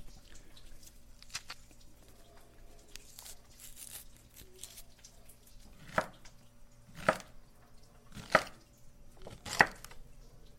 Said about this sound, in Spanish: la pacaya, a pelarla y a picarla y ponérselo en la ensalada.